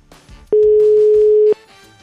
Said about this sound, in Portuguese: Vamos ligar. Já tá tocando, tá tocando,